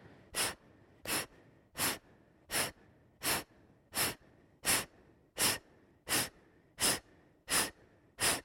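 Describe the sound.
Forceful exhales from a person doing an abdominal breathing exercise: twelve sharp, evenly spaced breath bursts at a quick, regular pace, each a short hissing puff, with near silence between them.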